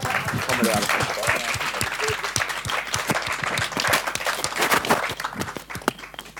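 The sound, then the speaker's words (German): Audience applause from a crowd, many sharp hand claps in a dense patter, with a voice briefly heard early on. “Und allen Leuten schon mal danke dafür. Ich würde mal einen Applaus.”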